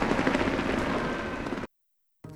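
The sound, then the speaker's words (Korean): Fireworks exploding at an Olympic opening ceremony as the five rings form: a dense, continuous roar of booming and crackling bursts that stops abruptly, then briefly returns. “오륜이 완성되는 순간 불꽃놀이가 함께 터졌습니다.”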